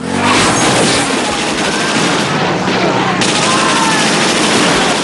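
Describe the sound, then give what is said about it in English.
Heavy Browning machine-gun fire sprays bullets at fleeing punks and bikers in a film scene. The barrage is loud and dense, forming a continuous burst across the whole span. “Manny smiles as another biker skids and crashes. The punks flee as the bullets spray.”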